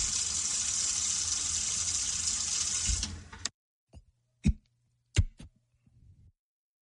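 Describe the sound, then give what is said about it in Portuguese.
Tap water runs steadily into a bathroom sink while someone rinses their mouth, a continuous hissing splash that cuts off after about three seconds, followed by a few small, sharp clunks and drips. “Você lava sua boca.”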